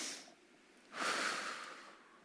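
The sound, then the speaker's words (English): Quiet human breathing in and out: a short, faint airy breath, then a longer, louder breathy rush that slowly fades, with no talk. “Try inhaling and exhaling.”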